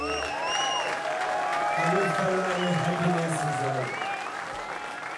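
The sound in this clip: An audience at the Radio 3 stage at the WOMAD festival applauds a Chinese band with sustained clapping and cheering. A voice talks over the steady applause, which tapers slightly toward the end.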